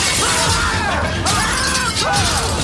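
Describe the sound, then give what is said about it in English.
Glass windows shattering as skeletal arms smash through them on a ship's cabin. A dense, continuous crash of noise is layered with swooping tones throughout. “Skeletal arms smash through the windows and clutch at Swan's wig.”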